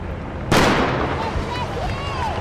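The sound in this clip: A starting gun fires once, a single sharp crack that opens Spokane's 12-kilometer run. A steady murmur of crowd noise follows it and continues to the end.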